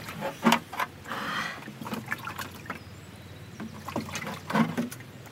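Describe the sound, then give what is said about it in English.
Water splashes and trickles over hands being washed after planting a sapling, with uneven bursts of louder splashing between softer running water. “Just wash my hands.”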